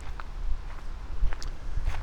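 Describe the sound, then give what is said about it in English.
Footsteps walking by a pond, a few soft, uneven scuffing steps over a low, steady background rumble. “Walking by the dragonfly pond, I see a frog on the log.”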